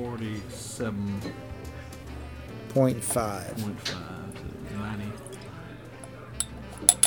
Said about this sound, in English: All right. Let's crack this thing open.